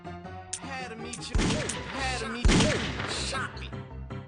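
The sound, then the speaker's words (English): Gunshots ring out during a video game robbery, with two loud, sharp blasts separated by about a second, mixed with game voices and people talking. “See, this feels like an arcade game now. Don't shoot. Alright, don't shoot him. He'll get real mad. He shot me.”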